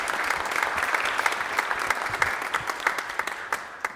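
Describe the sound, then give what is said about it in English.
An audience at a church claps to welcome first-time visitors, a loud, dense burst of applause that gradually thins into separate, distinct claps toward the end. “Okay, let's give our big hands with a welcome.”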